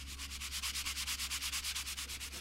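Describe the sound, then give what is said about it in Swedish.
Body filler is sanded down on a repair in a garage. Quick, even back-and-forth rasping strokes repeat in a tight rhythm, quiet and alone over a faint low hum. “Sliparbetet tar aldrig slut. Så fort han slipar ner spackel vid en lagning finns det alltid en ny att fortsätta med.”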